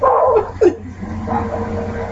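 A dog barks and yelps in a few short, sharp bursts, with the loudest yelp near the middle and a steady rumble of background noise underneath.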